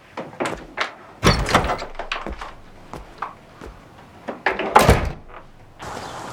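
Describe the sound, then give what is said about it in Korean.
A house's front gate is opened with several heavy thunks and knocks in an uneven sequence, some louder and sharper than others. “아디나와 승주가 대문을 열고 집 밖으로 나온다.”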